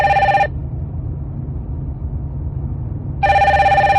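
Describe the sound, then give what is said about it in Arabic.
A telephone rings in a car on a motorway: two loud bursts of bright, trilling electronic ringing separated by a few seconds of near silence, with no talk. “ولما بلغ مستوى المكتب الشريف للفوسفات رن هاتفه”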